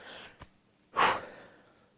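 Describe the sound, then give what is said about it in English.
One deep, airy breath, loud and lasting about half a second, is taken before a Bible reading. A faint, softer breath and a small click come just before it. “I got to take a deep breath”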